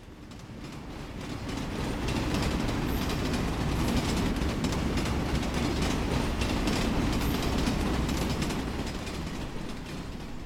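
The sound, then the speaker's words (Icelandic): Passenger train travelling on rails across Ukraine, a continuous loud rumble with dense rattling wheel noise that holds steady for the whole stretch. “Skulum skella okkur í lestina með Vali.”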